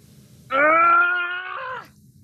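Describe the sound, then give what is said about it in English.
A drawn-out, strained vocal groan from someone struggling to pry open a cabinet with a crowbar, one sustained, mid-pitched voiced cry that sags in pitch and fades as it ends. “Blue is grunting and groaning as they try unsuccessfully to pry open a cabinet with a crowbar.”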